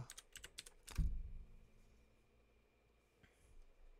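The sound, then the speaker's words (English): Typing on a computer keyboard: a quick run of light key clicks fills the first second and ends in a heavier thump. Near silence follows; the whole thing is faint. “I can't talk and type at the same time.”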